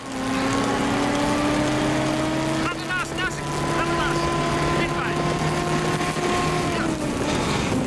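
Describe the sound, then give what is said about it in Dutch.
Engine drone of a car driving at the same speed alongside galloping horses on a beach. Its humming tones hold steady and loud throughout, with a brief dip and a few chirping sounds near the middle. “jullie rijden op dezelfde snelheid mee naast de paarden met een auto om ze goed in beeld te brengen. Maar dat klinkt in de originele opname zo.”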